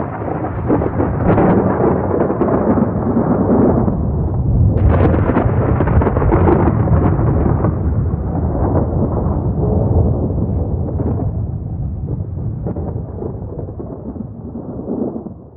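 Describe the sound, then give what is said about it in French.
Thunder crashes amid lightning as a thrown bomb hits the ground. A loud, sustained rumbling roar fills the whole stretch, with a sharper burst partway through, before it gradually eases toward the end. “Le diable lance sa bomba au sol et disparaît au milieu des éclairs.”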